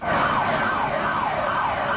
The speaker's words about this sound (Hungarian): Rendszeresen láthatók tegnap óta szirénázó rendőrautók London központjában, ahol 2 robbanószerrel megrakott autót találtak.